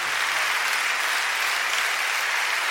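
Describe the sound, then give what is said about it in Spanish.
Applause from an audience at a church worship service: dense, steady clapping that fills the whole clip at even loudness with no voices. “¿Cuánto le dan un aplauso al Señor por esa presencia?”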